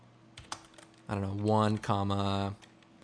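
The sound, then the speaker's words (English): A few quick, light clicks on a computer keyboard in the opening second as an expression is typed into animation software, followed by a longer, sustained tonal sound with a voice-like quality. “by alt-clicking on the stopwatch with the keyframes in place, we can type wiggle”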